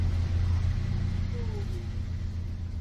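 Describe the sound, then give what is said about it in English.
A shuttle bus engine echoes off canyon walls as a steady, fairly faint low rumble with a droning hum that holds without clear changes. “it's the sound of the shuttle bus resonating against the walls of the canyon.”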